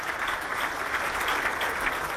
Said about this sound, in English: Jeez, that's a lot of people you've got in the studio applauding there, mate. Studio full of people clapping you all the way.